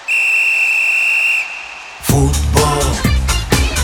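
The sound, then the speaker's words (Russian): A referee's final whistle at a football match sounds as one long, steady, shrill blast lasting well over a second, then stops and gives way to a loud, dense burst of other sound. “Но судья дал финальный свисток.”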